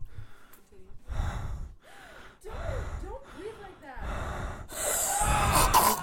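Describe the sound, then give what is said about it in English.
Heavy, exaggerated breathing comes from one person as a series of loud voiced gasps and huffs separated by short pauses. The breaths grow stronger and longer toward the end. “Don't breathe like that.”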